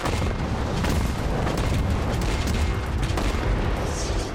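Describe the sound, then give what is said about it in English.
Artillery fire as a dense, continuous booming rumble, loud and steady from start to finish with no distinct gaps. “Artillery! Take cover! Take cover! Take cover!”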